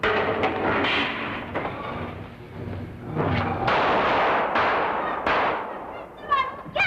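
Gunshots ring out in an audio drama: many sharp, loud bangs scattered irregularly across several seconds, each with a heavy low rumble and tail, some landing in quick pairs.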